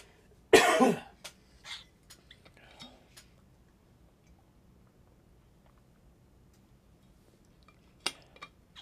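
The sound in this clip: A loud burst of coughing and throat clearing opens, followed by a few faint, scattered throat and mouth noises. A second short, sharp cough comes near the end, with quiet between.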